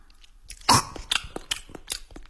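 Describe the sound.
Crisp crunching of fresh carrots being chewed: several sharp bites and crunches at uneven intervals, fairly quiet and with no voices.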